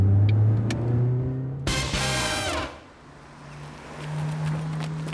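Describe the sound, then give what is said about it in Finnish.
A car with a two-litre OHC turbo engine driving into a driving school yard: a low steady engine drone, a brief loud rushing surge midway, then a quieter hum. “Aja nyt tuohon autokoulun pihaan ensin, niin tässä vielä taskuparkkeja 10 minuuttia reenaamaan.”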